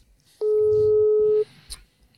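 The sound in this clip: A telephone line tone as a call is dialed: one steady, pure beep lasting about a second, with faint murmur before it and a brief click afterward.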